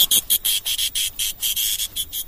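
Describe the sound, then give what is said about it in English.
A single cicada calling in a Thai jungle gives a loud, high, buzzing trill chopped into rapid, regular pulses, with no voices. “Oh, cicada. Look at that. It's just only one. That's only one. Yeah, quite noisy.”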